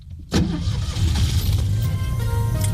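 A car travelling along a motorway away from Paris: after a brief quiet moment, steady road and engine rumble cuts in abruptly and continues as a loud, even drone with a strong low hum.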